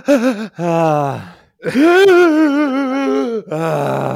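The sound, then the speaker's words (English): A voice imitates a drawn-out sneeze wind-up breath: several long, loud, wavering gasping and groaning tones, separated by short pauses. “My grandmother used to wind up for sneezes for like 5 minutes. She would start by taking a deep breath.”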